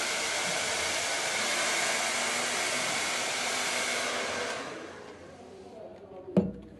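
A hair dryer blow-drying a wig gives a steady, loud, broad whooshing roar that runs for several seconds and then shuts off, leaving near quiet broken by a single soft knock.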